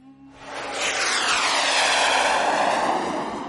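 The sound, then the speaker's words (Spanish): Fighter jets roar overhead at a military parade under a clear sky, a broad thunderous engine noise that swells quickly to a loud peak, with sweeping tonal bands, then eases slightly toward the end. “Los cazas sobrevuelan el despejado cielo con su sonido atronador.”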